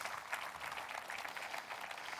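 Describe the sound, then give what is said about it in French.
A church audience applauding, a fairly faint, even wash of clapping that carries on without a break from start to finish. “Je veux applaudir la famille de Dieu. Il n'y a rien de plus beau que ça.”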